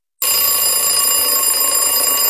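An alarm clock bursts into loud, continuous ringing, a harsh, steady metallic bell tone that starts abruptly and holds without a break.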